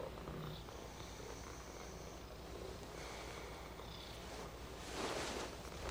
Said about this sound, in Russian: Гладит пятнистого кота, закрывает глаза. Кот терпеливо ждет, пока хозяйка успокоится.